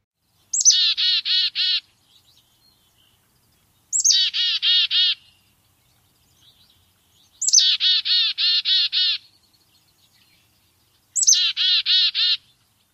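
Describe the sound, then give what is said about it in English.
A black-capped chickadee gives its chick-a-dee call four times. Each call opens with a sharp, high note followed by a run of buzzy, repeated dee notes, separated by clear pauses with no other sound. “And the classic chickadee call is where we begin today, beginning with the black-capped chickadee. Here is the black-capped chickadee chickadee.”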